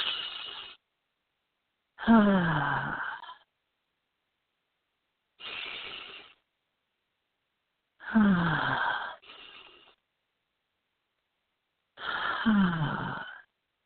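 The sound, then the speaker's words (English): Deep centering breaths are drawn and released in a slow rhythm of a few airy bursts separated by silence, and three of the exhales end in a soft sighing voice that falls in pitch. “So I just encourage you to join me in taking three centering breaths.”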